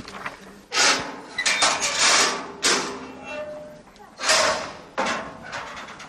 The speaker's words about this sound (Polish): Krata. Zdejmuję zamek.